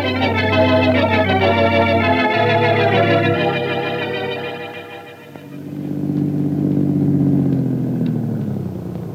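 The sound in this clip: Car engine running while driving, a steady low rumble with rich harmonics that softens and drops in pitch midway, then swells back up and holds at a deeper, even hum to the end.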